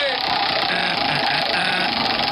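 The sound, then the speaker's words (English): A prize wheel spins in a blind karaoke game that picks a song, making a steady, dense ticking rattle that holds at one even loudness throughout. “Let's spin that wheel.”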